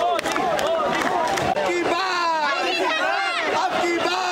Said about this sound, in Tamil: வழிநெடுகிலும் பல்லாயிரக்கணக்கான மக்கள் பாஜகவின் கொடியை அசைத்தபடியும் கோஷங்களை எழுப்பியபடியும் அவருக்கு வரவேற்பு அளித்தனர்.